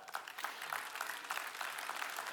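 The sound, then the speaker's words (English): An audience clapping, a dense, continuous patter of many hands that stays fairly even throughout, with no talk. “I'll stop long enough to catch my breath and for you to clap.”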